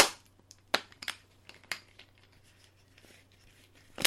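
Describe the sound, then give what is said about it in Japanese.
A thin PET bottle of barley tea crushed by hand, giving a series of sharp plastic crackles and pops, with a few louder cracks among fainter crinkling and quieter gaps later on. “先の薄いペットボトルなんで、あのベコベコになっちゃいますね。こう。”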